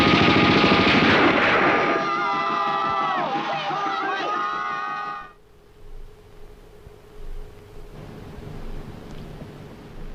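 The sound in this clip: Gunfire crackling in a rapid, dense run under loud shouting voices, breaking off abruptly midway, then a quieter stretch with a few faint bursts.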